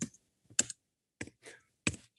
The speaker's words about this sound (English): I don't know what you're trying to get across, but you were angry in whatever it was you were trying to type. One letter at a time.